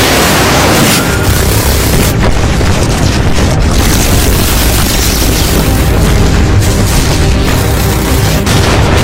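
Cannon shells explode in a continuous, loud barrage of deep booms and rumbling roar, with blasts blurring together without pause for the whole stretch.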